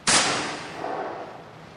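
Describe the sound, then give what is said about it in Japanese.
A single loud gunshot from a gun fired at a target during shooting practice: a sharp, sudden crack followed by a long, slowly fading tail. “よく見てろ。銃はこうやって撃つんだ。”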